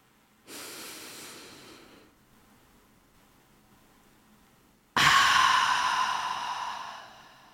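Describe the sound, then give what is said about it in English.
A deep, slow breath drawn in and released during a morning grounding exercise: a soft, airy inhale, a quiet pause, then a longer and louder whooshing exhale. “So I would love to start this morning with just a nice, deep, grounding breath together.”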